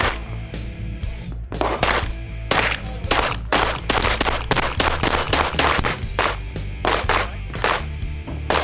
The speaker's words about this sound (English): So here at SHOT Show 2020, just got done shooting the Glock 44 22 caliber. Very light, minimal recoil.